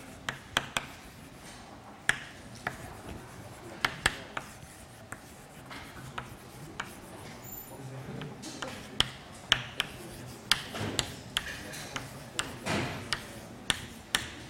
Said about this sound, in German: Ich schreibe hier auch gerade noch mal die Adresse an.